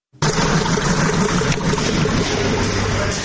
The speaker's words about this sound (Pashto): په دې پارک کې د اکثرو فابریکو دروازې تړلې او یوازې د یو څو د ماشینونو اوازونه اورېدل کېږي.